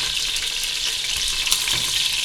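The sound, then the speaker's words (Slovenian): Meat with crispy, well-browned skin sizzles as it fries in oil in a pot, giving a steady, dense hiss throughout with no talk. “zdaj, ko je v bistvu meso že lepo zapečeno, ko je koža že očitno hrustljava, bom dal meso ven na krožnik.”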